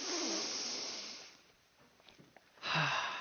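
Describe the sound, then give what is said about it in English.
A group of people take deep breaths together, in through the nose and out through the mouth. Soft, airy whooshes are heard: one long breath fades out, a quiet pause follows, then another breath begins. “I want us all to take a few deep breaths, in the nose, out the mouth, nice and deep, everybody together, let's do it. And again.”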